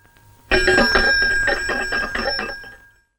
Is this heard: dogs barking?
no